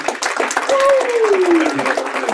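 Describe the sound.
An audience applauds to welcome a guest, with loud, steady clapping that holds for the whole stretch.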